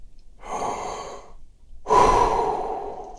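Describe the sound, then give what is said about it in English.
Two slow, deep breaths with no talking: the first is a softer, airy breath, and after a short pause a louder, longer breath follows. “Breathe. Good. Let's breathe together. Good. Just like that.”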